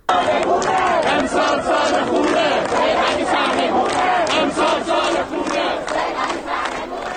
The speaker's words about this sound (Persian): ما صدای دانشجویان دانشگاه امیرکبیر رو می‌شنویم.